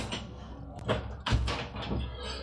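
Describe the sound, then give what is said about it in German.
A window being shut: a few light taps and knocks followed by a dull, low thud, moderately quiet. “Oh, ich sollte vielleicht noch das Fenster zumachen.”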